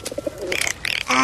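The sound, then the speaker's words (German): Pigeon cooing in a quick run of short, soft calls, then a few brighter, higher notes ending in a longer sustained call. “Krokodil, das ist eine Taube. Die ist nicht besonders hübsch.”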